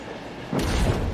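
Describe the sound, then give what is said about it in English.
A subway train passing: after a quieter lead-in, a low, heavy rumble starts abruptly and stays loud and rattling to the end. “He watches a subway train pass. In the front of the train, the operator reads a newspaper.”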